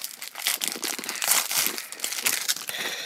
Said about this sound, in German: Ich bin so gespannt, was mein Glückskeks sagt.